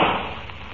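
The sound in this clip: A single gunshot in a radio drama: a sharp, loud burst of broad noise that starts at once and slowly decays over less than a second.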